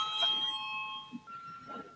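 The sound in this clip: A parliament's voting bell: a faint, sustained electronic tone that shifts to a different pitch partway through, with low murmuring voices beneath.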